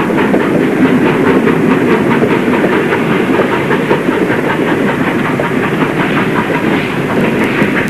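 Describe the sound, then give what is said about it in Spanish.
A train rolls out of a station with a steady, loud rumble and a regular clickety-clack of wheels over rail joints that runs the whole time without a break. No voices are heard. “El tren abandona la estación”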